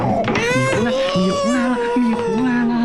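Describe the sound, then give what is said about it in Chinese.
A baby cries without pause, a loud, wavering wail with sobbing swings in pitch that swell and dip throughout. “哭得更厉害了”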